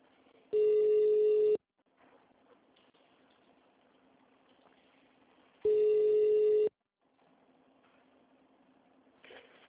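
Two ringback tones on a phone call to a city hall, each a steady buzzing tone about a second long, separated by a few seconds of faint line hiss.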